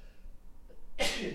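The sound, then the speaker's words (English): A single loud sneeze breaks out abruptly near the end, preceded by a faint quick intake of breath over a quiet background hiss. “you could blame the winter season for this sneeze here”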